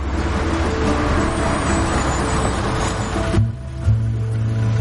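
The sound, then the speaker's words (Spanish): A hearse and its convoy of cars leave a motorway with a steady, loud rumble of road traffic and engines. Partway through, the noise drops abruptly to a lower hum, followed by a couple of brief swells. “El coche fúnebre y su comitiva salen de la autopista.”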